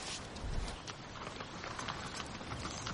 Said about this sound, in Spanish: Después los dos chicos montan a caballo.